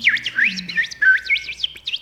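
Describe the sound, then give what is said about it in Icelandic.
Birds chirping in quick, high, warbling whistles. Bursts of swooping notes with brief gaps stand out clearly on their own. “eru þeir komnir inn aftur fuglanir”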